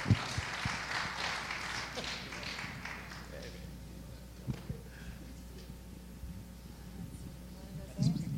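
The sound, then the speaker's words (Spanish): Applause at a bilingual church family night welcoming two pastors. Dense clapping fills the first few seconds, then thins to scattered taps as speech follows. “So would you again give a warm New Life welcome? ¿Por qué no le da un aplauso to Pastor James and Teri Kraft?”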